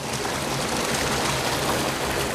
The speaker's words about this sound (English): A waterfall is tumbling out of the shattered brickwork of the main trunk sewer. The aorta of the entire sewage system has burst. Raw sewage is cascading down into the nala 20 feet below.